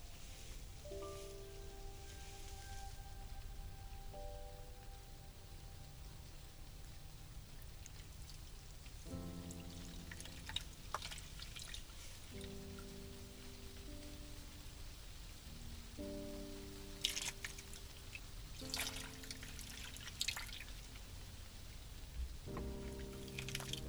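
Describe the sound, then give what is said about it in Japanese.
Water poured over a body to rinse it off, a soft, steady hiss of splashing water with a few brief louder surges, heard faintly beneath gentle tonal music. “少し風が吹いてきましたね。体が冷える前に流してまいりましょうか。”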